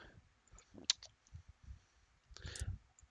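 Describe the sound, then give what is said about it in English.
Dice being gathered and handled during a tabletop role-playing game make faint, scattered clicks and rattles with a few sharper clacks, quiet and with no talking. “Alright, so let me get my dice together.”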